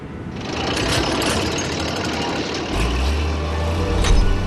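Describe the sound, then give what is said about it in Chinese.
An excavator engine starts and runs at a salt lake as a day of dam patrol work begins. A steady rattling mechanical clatter is joined partway by a deeper, louder engine rumble that keeps running to the end. “盐鹏启动了他的挖掘机，以每小时3公里的速度开始了一天的寻坝作业”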